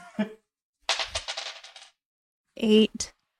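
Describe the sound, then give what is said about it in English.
Two six-sided dice rolled onto the floor during a tabletop role-playing game clatter in a quick burst of small rattling ticks for about a second, with brief talk before and after. “So roll 2d6 plus charisma. I'm going to do it on the floor. I feel like this table is cursed.”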